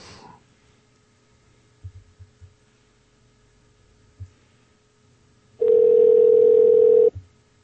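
A telephone tone sounds while a new number is added to an ongoing call: one steady, loud tone lasting about a second and a half, preceded by a few faint low thumps over a quiet background hum.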